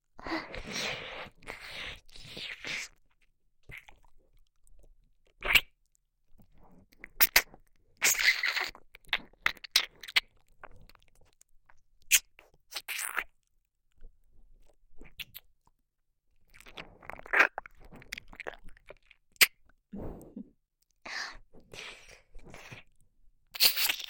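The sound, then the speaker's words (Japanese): Wet chewing, biting and crunching mouth sounds imitate eating the listener's ear, coming as many irregular bursts of clicks and smacks split by short silent gaps, fairly quiet and close. “あなたの耳、とってもおいしいわ。”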